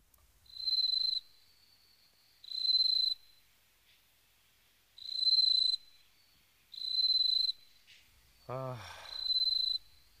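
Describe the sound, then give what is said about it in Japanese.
Bell crickets chirp in six steady, high-pitched ringing trills, each lasting under a second and separated by short pauses, clear against a quiet background. “スズムシが鳴いてら風流だな。”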